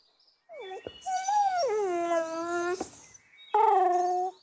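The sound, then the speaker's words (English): Whimpering of a three-legged dog that cannot walk: a long, high whine that wavers and dips in pitch, followed after a short pause by a second, briefer whine. “This doggy has got three legs. It can't walk. Poor doggy.”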